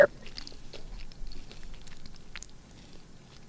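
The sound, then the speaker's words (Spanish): People chewing churros: soft, repeated crunching and biting sounds, fairly faint and irregular. “Están aquí que pasen los señores de los churros, dice, porque escucha cómo masticamos y están antojándose.”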